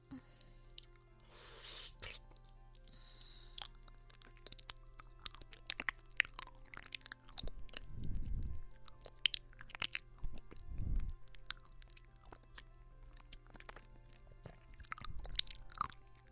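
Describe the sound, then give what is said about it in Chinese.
Someone eating food in small bites and chewing quietly. Many soft, crisp clicks and moist squishy sounds come at an irregular rhythm, with a few duller low thumps mixed in. “我们一小口一小口的吃，啊，这样子”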